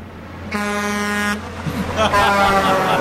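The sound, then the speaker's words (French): A truck horn gives a single sustained, tonal honk lasting under a second, followed by other sounds and talking. “Le bruit du camion qui te klaxonne.”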